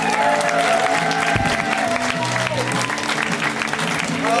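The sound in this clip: Audience applause welcoming a comedian to the stage at a stand-up show: steady dense clapping through the whole stretch, with some voices mixed into the crowd noise.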